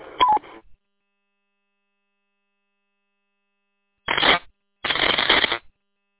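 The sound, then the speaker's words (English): A two-way radio roger beep sounds as a brief, tonal electronic chirp. After a silence come two bursts of band-limited radio noise. “Station 620, just an FYI, your Roger beep is on.”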